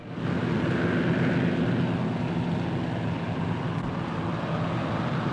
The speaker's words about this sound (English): The plane circles the sky before making its descent.